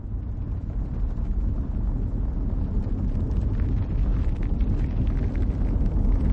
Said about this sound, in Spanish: El viento mueve las lonas de una tienda de campaña.